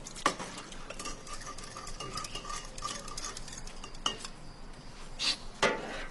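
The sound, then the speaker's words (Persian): Spoon stirring in a cup or glass: a continuous soft scraping and swirling with a few bright metallic clinks, a sharper cluster near the end, no talk. “هم بزن قاشقو بده.”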